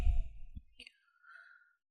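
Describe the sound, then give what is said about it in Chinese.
A forceful breath blown out through the mouth, as in a breathing exercise: a short, breathy gust at the start, followed by fainter airy noise. “因为我们呼气的时候是用口嘛，口往外呼气嘛。吹。”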